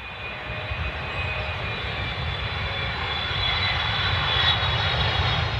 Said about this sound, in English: now we invite you to sit back, relax, and enjoy the takeoff